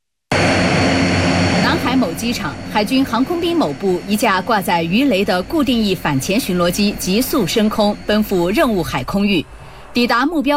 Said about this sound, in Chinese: 南海某机场，海军航空兵某部一架挂载鱼雷的固定翼反潜巡逻机急速升空